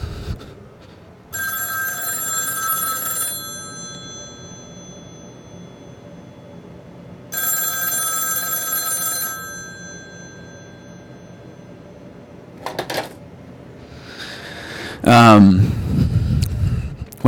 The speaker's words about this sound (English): you can hear my phone ring right now